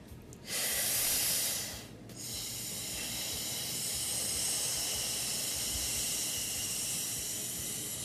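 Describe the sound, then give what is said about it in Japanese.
A deep breath in during a breathing exercise, a loud airy rush, is followed by a long, slow, thin exhale that holds as a steady hiss for several seconds. “こんなやつを毎日やってます。 ゆ大きく吸ってこうゆっくり細く吹くって感じですかね。”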